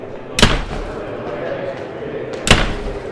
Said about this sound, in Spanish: La aglomeración entra presuroso, cerrando las puertas de los dormitorios con un fuerte portazo.